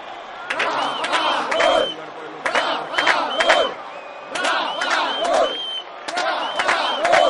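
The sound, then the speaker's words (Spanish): A stadium crowd at a football match chants the name of striker Rafa Gol, late in the second half. Loud voices repeat the same chanted phrase in a steady rhythm, with brief lulls between each round. “El público en el estadio comienza a corear el nombre de Rafa Gol.”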